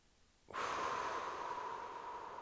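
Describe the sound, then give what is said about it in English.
A single long inhale through the nose during a guided breathing exercise, starting abruptly after a short quiet stretch, then a steady, airy draw that holds its level to the end. “In through the nose, hold at the top.”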